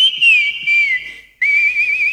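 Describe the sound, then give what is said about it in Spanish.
A person whistles a tune in clear, high, sustained notes with a slight warble, in two phrases split by a brief pause. No one talks. “Silba lindo, che.”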